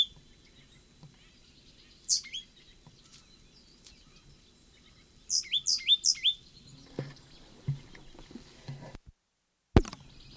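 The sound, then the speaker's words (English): Bird singing in short, high, bright chirps: a pair of notes early on, then a quick run of about four, over faint low background rumble, with a soft thump near the end. “Sycamore bird.”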